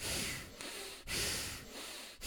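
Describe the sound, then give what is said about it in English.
A voice imitates heavy breathing with a few long, rasping, snort-like breaths in a steady rhythm, loud and alone. “I hear, like, breathing. And it sounds like this.”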